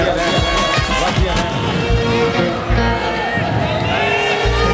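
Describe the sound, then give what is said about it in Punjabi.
An audience claps and cheers at a live stage show, a dense and steady roar of crowd noise with scattered whoops throughout. “ਤਾੜੀ ਮਾਰੋ ਕੁੜੀਆਂ ਦੇ ਨਾਂ ਤੇ ਜ਼ੋਰ ਦੀ ਵਸਦੀਆਂ ਰਹਿਣ”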